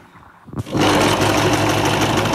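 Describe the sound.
A sewing machine in a seamstress's salon workshop, used for sewing a Mamluk costume, whirs into action after a brief quiet moment and then runs as a loud, steady, buzzing drone.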